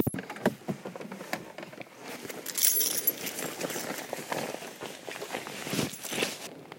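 Footsteps crunch along a slightly muddy hiking trail covered in rocks and pine needles, a steady run of many soft, scuffing steps with small rattles and rustles in between.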